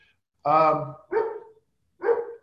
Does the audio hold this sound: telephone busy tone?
no